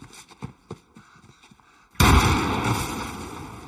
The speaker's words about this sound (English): Jojo blows himself up with a grenade